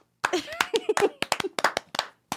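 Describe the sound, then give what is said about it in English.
Brief, scattered hand clapping from a small group of people, many sharp, uneven claps, fairly quiet, with voices talking over them. “Did you guys want to applaud or something?”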